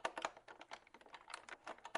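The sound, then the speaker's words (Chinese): Typing on a computer keyboard with an index finger: many quick, uneven key clicks in a steady flurry, faint and alone. “他打开邮箱，食指熟练地敲击着键盘，开始写信。”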